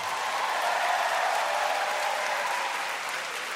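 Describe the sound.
Audience applause at a live comedy show: dense, steady clapping sustained throughout and easing slightly near the end.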